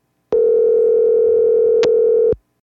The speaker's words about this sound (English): I think this is the last time we can try to give her a call.